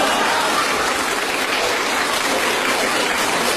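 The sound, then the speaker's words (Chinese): An audience, including children, applauds at a live show: dense, continuous clapping at a steady, loud level, with no talk over it. “预备，连乐带鼓掌。”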